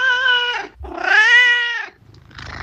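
A tomcat meows in two long, drawn-out, tonal calls, the second louder and slightly higher before easing down, followed by a short rougher sound. He makes this noise when scratched on the lower back.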